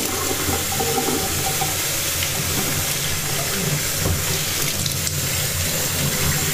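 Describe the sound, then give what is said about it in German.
Tap water runs steadily while a cup is washed under it at a kitchen sink, a continuous, even hiss and splash with no pauses and no talking. “Also, jetzt natürlich Tasse abwaschen. Wie jeden Morgen.”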